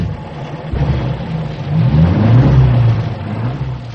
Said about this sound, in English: I took the van into second gear, pointed it off the road and towards the beach, and got out fast.